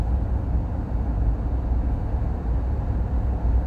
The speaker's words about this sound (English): Sorry, madness on the roads, I love it. People in early morning driving